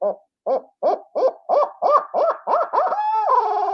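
A barred-owl laughing sequence is blown on a turkey hunting call: a steady series of short, rounded hoots that quickens slightly, then ends in a long, drawn-out wavering note, heard alone.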